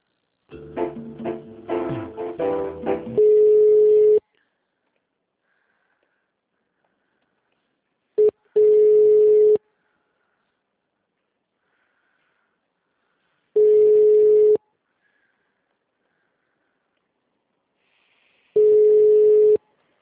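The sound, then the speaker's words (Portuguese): Telephone line tones during a call transfer: a brief stretch of music gives way to four steady, loud tone bursts at regular intervals, each about a second long, with silence between them. “só um instante que eu vou transferir a ligação, tá bom?”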